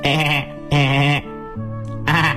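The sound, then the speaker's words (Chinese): A lamb bleats out in the snow in a few loud, wavering, nasal calls, each cry shaky and rich in overtones, separated by brief gaps. “就在这个时候，小羊也在外面的雪地里找吃的。”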